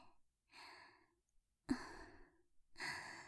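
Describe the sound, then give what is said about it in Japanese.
Slow exhalations from a patient following breathing instructions while an IV needle is inserted: three soft, airy, sigh-like breaths about a second apart, heard alone without talk. “はい、吐いて。”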